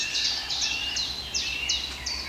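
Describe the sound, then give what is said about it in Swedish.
Forest birdsong from a blackcap, chiffchaffs and a chaffinch: a run of bright, high chirps and short downward-sweeping phrases, repeated at a lively pace, fairly faint over a steady soft background. “Svartättan igen och gransångarna är väldigt påtagliga här nu. Bofinken har ju fått igång.”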